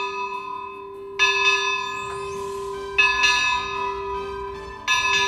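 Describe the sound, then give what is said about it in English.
A small bell rung by a swing linked to its clapper, struck three times at a slow, even pace, each bright, loud strike leaving a steady ringing tone that sustains until the next. “There's a little bell and a swing. And the swing is connected to the clapper of the bell, so as you swing back and forth, the bell rings.”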